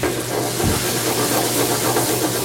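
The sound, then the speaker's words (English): Sizzling and hissing as wine and green onion are added to a hot cooking pan for an Italian dish, a loud, steady sizzle throughout with a brief low thump near the start. “We're adding a little green onion. And just a little bit more wine. I want it to have some juice in there.”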